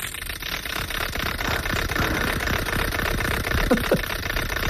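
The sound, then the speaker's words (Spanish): Dense, continuous rattling clatter of a spun wooden ratchet noisemaker (matraca), a loud, steady stream of rapid clicks with no pauses and no voices. “No, es una matraca, yo creo. Una matraca, pues muy bien, es una matraca.”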